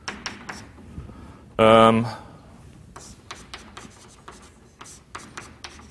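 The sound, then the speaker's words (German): Writing on a board during a lecture: short, dry scratching strokes come in an uneven rhythm, with a brief loud voiced burst early on, then more separate scrapes and taps. “Ich schreibe es einfach mal hin, dann kommt es entweder oder auch nicht.”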